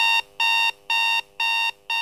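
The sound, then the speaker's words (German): A morning alarm clock rings in loud, high electronic beeps, repeating in evenly spaced bursts with short gaps between them and no other sound around. “Und am nächsten Morgen klingelt sein Wecker um 6.34 Uhr und 51 Sekunden.”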